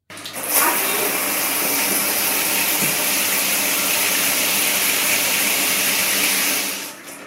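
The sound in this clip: A shower running, its water pouring down as a steady, dense hiss that starts abruptly, stays even for about six seconds, then tapers off at the end, with no voices.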